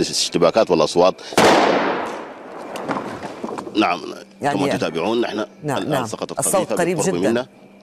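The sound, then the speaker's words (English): A single loud gunshot cracks out amid people talking during fighting in Sudan. Its sharp burst fades over about a second before the voices carry on. “So yeah, we do feel that once we step outside, we're not sure who exactly is shooting at us, but we do feel that they know we're here and they're not happy about it.”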